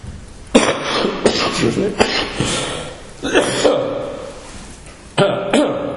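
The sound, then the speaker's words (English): Coughing fit: a man coughs repeatedly during a sermon, with many harsh, rough bursts coming in uneven clusters. “my wife says if you have a coughing fit in the middle of your message, just stop.”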